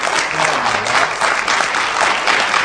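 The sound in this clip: An audience at an afternoon gathering gives a grieving family a big round of applause: dense, continuous clapping that stays loud and even throughout.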